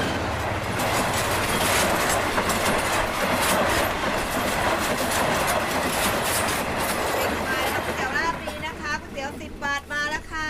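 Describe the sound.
A wooden passenger train runs on the rails with a loud, continuous rumble and rhythmic clatter that eases near the end, where voices briefly come through.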